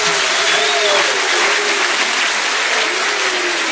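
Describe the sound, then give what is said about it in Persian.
Sustained hand clapping from many people, a dense, even wash of claps that runs loud and unbroken from start to finish. “یه دست بزن دست بزن”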